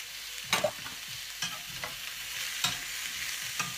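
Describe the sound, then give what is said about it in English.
Courgette and onion fry in a pan with a soft, constant sizzle. A few sharp clatters from stirring interrupt it at irregular moments. The sizzle stays faint throughout, with no talk. “shall I add another courgette? So I'm going to do another courgette in here actually. Sorry about the noise, guys.”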